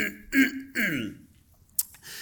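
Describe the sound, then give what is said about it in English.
A man clears his throat in a two-part rasping ahem, mid-pitched and fairly loud, followed by quiet and a single sharp click. “He walks into the room and he adjusts his collar and clears his throat.”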